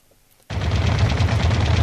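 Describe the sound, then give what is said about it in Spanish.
Gunfire while emptying a magazine: after a brief near-silence it starts abruptly as a continuous, dense roar of rapid shots that stays loud to the end. “¡Dispara, dispara otra vez, Charlie!”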